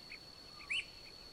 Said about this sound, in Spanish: Los campesinos de la región la conocen como Piscua. Es un pájaro colorido, pequeño, de cola larga y tres tipos diferentes de canto.